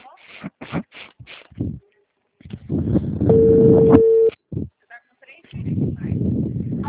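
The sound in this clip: A single ringback tone sounds on a phone call: one steady, mid-pitched beep lasting about a second, amid muffled line noise and talk.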